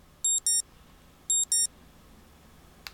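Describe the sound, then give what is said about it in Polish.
Four short, high electronic beeps in two quick pairs: the piezo alarm tone of a BlindShell Classic phone. The pairs are separated by a pause, with a faint click near the end. “piezo alarm wybrane”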